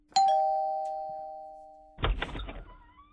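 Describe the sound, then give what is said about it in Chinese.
A hotel room doorbell chimes with a bright, clear tone that rings on and slowly fades for nearly two seconds, followed by a brief burst of rattling noise. “门铃一响，门一开，酒店房间里的齐弘志”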